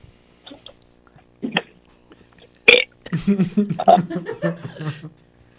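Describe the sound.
A person lets out a single loud, deliberate burp after a few faint noises, then chuckles and lively talk follow.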